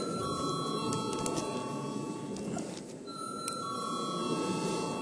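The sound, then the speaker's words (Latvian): An electronic bell sounds in the Latvian parliament chamber before a vote, a sustained ringing made of steady high tones that briefly drops out midway and then resumes, over a soft background hum. “Paldies, lūdzu zvanu.”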